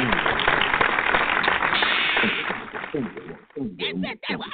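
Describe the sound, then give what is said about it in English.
An audience claps their hands at a community talk on Black history. Dense, rapid clapping fills the first three seconds, then thins as a voice speaks over the end. “Y'all give me a hand clap. Just go and give me a hand clap.”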